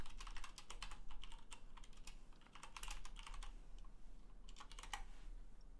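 Rapid typing on a computer keyboard, with many crisp key clicks in uneven bursts and short pauses, steady and moderately loud, with no talking.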